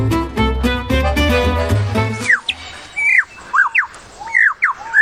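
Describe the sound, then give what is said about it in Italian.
Calls of a well-known songbird: several sharp, squawky chirps that swoop up and down in a loose series. They follow a brief stretch of lower, steady tonal sound. “Questo è solo uno dei suoni di uno degli uccelli canori più conosciuti al mondo.”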